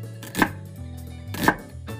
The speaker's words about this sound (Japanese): かなり薄めに切らないといけないんだな。